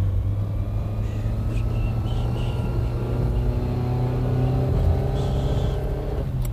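A car's engine drones steadily as the vehicle drives out of town, a continuous low rumble with a faint hum on top, holding an even loudness throughout with no clear surge of revving.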